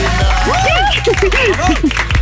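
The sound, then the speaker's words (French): A radio studio team claps and cheers to welcome a contestant to a morning game. Loud clapping runs under a string of short whooping vocal cries that rise and fall in pitch. “qu'on applaudit”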